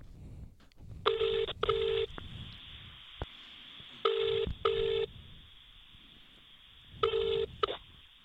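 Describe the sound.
Touch-tone dialing beeps from an iPhone as a number is dialed: three pairs of short, steady electronic tones separated by pauses, quiet over a low background rumble.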